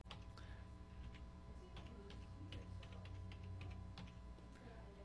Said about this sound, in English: oh, you know, I've got to type in a password here